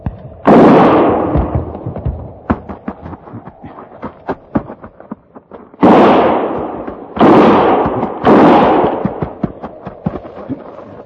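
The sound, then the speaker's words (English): Gunfire breaks out in four loud, booming shots with long fading tails. Between them come bursts of many short, sharp cracks and pops, and no voices are heard. “Start firing.”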